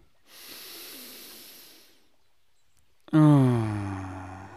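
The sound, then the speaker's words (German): A deep breath: a soft, airy inhale lasts nearly two seconds, followed by a short silence and then a louder, voiced exhale. The exhale sighs out with a falling pitch and fades. “Lass uns einen tiefen Atemzug nehmen.”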